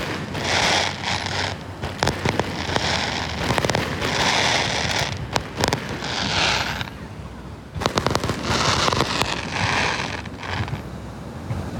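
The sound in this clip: Fireworks burst over the sea at Haitang Bay in many crackling, popping volleys, loud and nearly continuous, with a short lull partway through.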